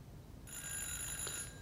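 A telephone rings late at night, a steady, bright ringing tone that starts after a short quiet moment and continues to the end.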